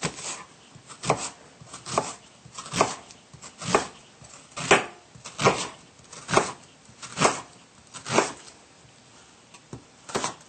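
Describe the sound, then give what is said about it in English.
A knife slices half of a peeled onion into thin strips, giving many crisp, evenly spaced cuts in a steady rhythm, each a short sharp chop on the board, with no talk. “We're only going to use half of our onion peeled. So we just slice this into thin strips by cutting along the lines.”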